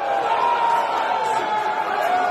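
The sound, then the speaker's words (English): Soccer fans at Amsterdam Tavern in South St. Louis roar as the US men's national team scores against Wales, a loud, sustained wall of crowd noise that holds steady from start to finish. “This was the scene at Amsterdam Tavern in South St. Louis when the United States men's national team scored its first goal against Wales earlier this week.”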